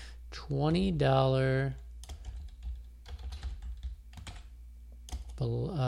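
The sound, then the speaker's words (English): Typing on a computer keyboard produces a rapid run of light clicks and taps, set between stretches of a person talking. “after I type this in here and hit add”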